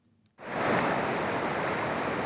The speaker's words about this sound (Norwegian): Dette er lyden av dronninga blant lakseelver.